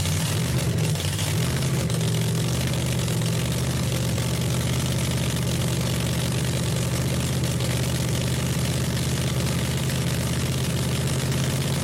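The yellow car's engine runs on a dyno with a steady, unbroken droning hum and vibration. The even, low-pitched tone holds for about twelve seconds with no talking.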